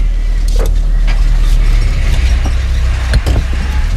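A car engine drives off in pursuit, a steady low rumbling drone that holds level throughout, with a few faint mechanical knocks on top.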